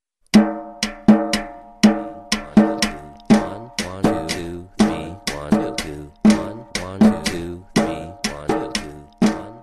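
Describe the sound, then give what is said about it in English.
A three-against-two polyrhythm: two evenly spaced beat patterns, one of three and one of two, are played together as pitched struck tones. Many sharp, ringing notes fall in a steady interlocking cycle, with no talking. “I'm gonna play something, two different evenly spaced beats. One will be three and one will be two.”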